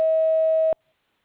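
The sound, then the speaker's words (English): A single voicemail beep marking the start of message recording: one clear, steady electronic tone lasting under a second, then an abrupt cut to silence. “Please record your message after the beep.”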